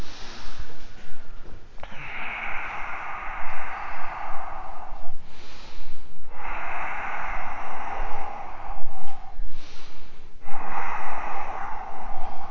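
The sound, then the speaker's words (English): Deep breathing in and out during a yoga session, heard as three long, airy, noisy breaths that each last a few seconds, with short pauses between them and no talk. “Breath in. Breath out. Inhale. Exhale.”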